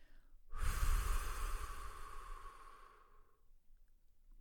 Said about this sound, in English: breathing in through the nose, holding the breath, and breathing out through the mouth, making a whooshing sound that sounds kind of like this.